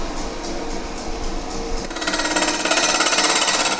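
Wood is turned into a bowl on a lathe as a gouge shaves it, giving a continuous rattling, chattering whir with a fast regular pulse that grows louder partway through.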